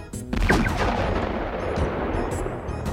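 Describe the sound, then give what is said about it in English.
A blunderbuss-style blaster gun fires with one loud booming blast, followed by a sustained, rumbling roar of noise that lasts to the end. No one speaks. “I took out my Smith Hitachi Godzilla Blunderbuss Blaster.”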